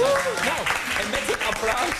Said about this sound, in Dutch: Kan ze ook een applaus krijgen?